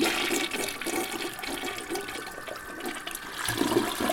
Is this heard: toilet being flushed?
yes